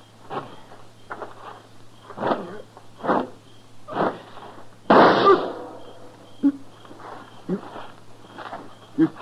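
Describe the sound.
One sharp, loud gunshot bursts out midway, standing well above the quieter thumps and voices around it.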